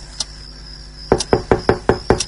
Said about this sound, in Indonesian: Aku coba mengetuk dari dalam untuk membalas ketukannya. Berniat untuk memaksa orang itu menjawab sebelum aku membuka pintu itu.